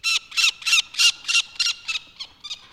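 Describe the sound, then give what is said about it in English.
Peregrine falcon chicks call from their nest on top of a city hall building, one of four nestlings. A quick, evenly spaced run of harsh, rasping squawks repeats many times and grows a little weaker toward the end. There is no talking. “four peregrine falcon chicks have been nesting atop the landmark with their mom and dad.”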